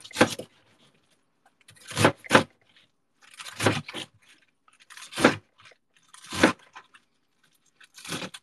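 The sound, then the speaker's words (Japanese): A knife chops through stacked napa cabbage leaves into bite-size pieces for a hot pot, making crisp, crunchy cuts in short, separate bursts, some in quick pairs, with near silence between them. “重ねてね、切るんですよ。白菜を。白菜を重ねて切って、で、重ねたまま鍋に並べていくわけですね。”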